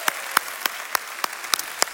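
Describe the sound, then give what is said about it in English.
Clapping from a church audience welcoming a visitor: a wash of applause with sharp, distinct hand claps popping out at a fairly even pace. “Let's give the visitor a big hand.”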